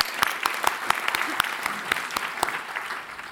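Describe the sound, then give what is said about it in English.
An audience applauds trustees and Chairman's Council members at an evening program, with steady clapping and sharp, closely spaced claps that thin out and fade toward the end. “Let's give our trustees and our Chairman's Council members a hand as well.”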